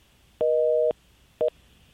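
A telephone busy tone follows a disconnected call on a call-in line: two clean electronic beeps, a long one of about half a second and then a short, clipped one, alone against a quiet background.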